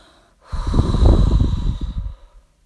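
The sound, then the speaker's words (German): Deep exhaling through an open mouth: a single long, breathy rush of air rises and fades over about a second and a half, with no talking. “Und jetzt atme 3-4 Mal tief aus, durch den offenen Mund”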